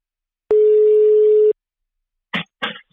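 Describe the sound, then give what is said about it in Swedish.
A telephone rings while a call is placed: a single steady one-second tone, clear and loud, followed by two short bursts of noise. “vi börjar med att ringa Alexander tänkte jag.”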